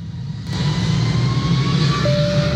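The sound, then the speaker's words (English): Airplane engine drone from a United flight between Decatur Airport and Chicago O'Hare: a loud, steady low roar with broad hiss above it that swells in after a short quieter start, joined late by a thin sustained tone. “Ready to travel? Book a flight and fly local. Skip the long drive and the big city airport hassle. Fly directly from Decatur Airport to Chicago O'Hare on United”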